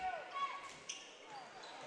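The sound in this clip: A basketball dribbled on a court during a Merrimack versus Bedford high school game, with faint bounces under a commentator's voice.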